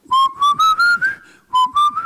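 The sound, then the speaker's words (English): A 62-year-old man whistles a clear, bright tune of short notes that step gradually upward in pitch, pauses briefly, then starts another rising phrase, with no talking. “This is the whistle of a 62-year-old man.”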